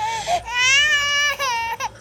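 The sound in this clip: An infant cries in a sustained, high, wailing voice, broken by a few brief catches of breath. The cry is loud and stands alone, with no talk.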